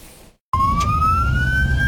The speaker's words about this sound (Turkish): Bütün hepsi böyle fermuar sistemi açıyorlar ve ambulans oradan devam ediyor.